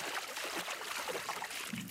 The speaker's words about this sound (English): We arrange ourselves in a boat for a short journey to a river island in Assam, a state famous for tea, the mighty Brahmaputra River we're crossing